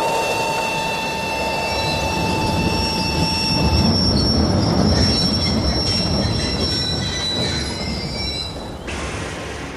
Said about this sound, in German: Sie hören den Zügen zu, dem Pfeifen, dem Rollen und Pfeifen der Räder.